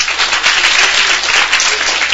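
Children applaud after a young girl answers in a lesson, a dense, steady patter of many hands clapping that stays loud throughout.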